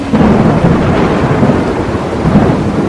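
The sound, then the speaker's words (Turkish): Rain pours down as dark clouds roll in, a loud, dense, continuous hiss with a low rumbling undertone and no talk. “Gökyüzündeki bembeyaz bulutlar bir anda kararmaya başladı. Yağmur yağıyor.”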